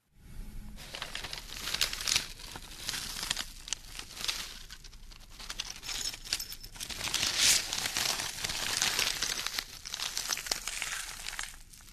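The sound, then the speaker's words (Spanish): A small plastic bag is crumpled and crinkled by hand for about twelve seconds, a continuous run of crisp rustles and crackles with uneven bursts and no talk. “Es una bolsita de plástico,”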